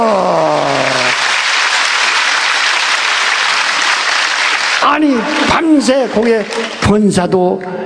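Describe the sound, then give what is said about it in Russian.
An audience applauds with loud, steady clapping for about five seconds; a voice is heard at the start, and speech takes over as the applause ends. “Аплодируйте.”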